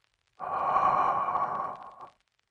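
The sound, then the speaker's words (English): One long, steady breath is drawn in during a guided relaxation breathing exercise. It is a soft airy rush lasting under two seconds, heard alone with silence on either side. “I invite you now to take a deep breath along with me on the count of three.”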